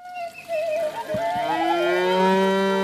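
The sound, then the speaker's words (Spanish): A cow mooing in one long, drawn-out, loud low call that holds steady to the end. “Mira, la vaca de Silviña acaba de salir.”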